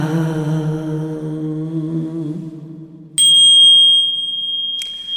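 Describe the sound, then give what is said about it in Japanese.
A struck bell at a temple: a low, wavering tone fades away, then a bright, high bell rings out with a sharp attack, is struck again moments later, and sustains alone as it slowly decays. “最後の鐘が優しかったですね、うん、力強くそして優しく”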